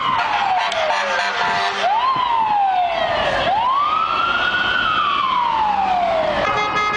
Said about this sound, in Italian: Rumori che avete sentito sono del traffico di Manhattan, li abbiamo registrati per strada, sulla Quinta Strada, sotto il nostro ufficio